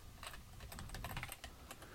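Rapid typing on a computer keyboard as a credit card number is entered into an order form field. A quick, continuous run of many clicky keystrokes sits over a steady low background hum.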